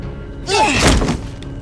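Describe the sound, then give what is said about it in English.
A door being broken down: one heavy crashing impact with a splintering, ringing burst lasting about half a second, then a fade back to a low hum. “We need to break down the door.”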